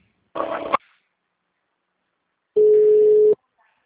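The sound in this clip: Telephone tones sound while a call is transferred to an attendant: two short bursts separated by silence, the second a steady, even-pitched beep lasting under a second.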